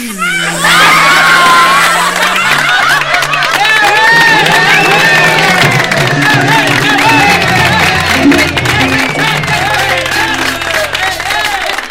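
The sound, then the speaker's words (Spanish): Loud crowd noise from a stand-up comedy audience: cheering and shrill shouts over clapping, rising quickly at the start and staying dense and energetic to the end. “Ay, cómo aplauden.”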